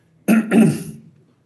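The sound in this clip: Throat clearing by a preacher in the middle of a German sermon. It is one loud, rough, guttural burst split into two quick parts, then fades out, with no talk around it.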